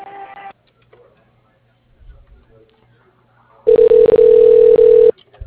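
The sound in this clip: A telephone line rings while a call is transferred to voicemail: a single steady mid-pitched ring tone lasting about a second and a half, loud and alone, after a near-silent wait broken by brief faint noises.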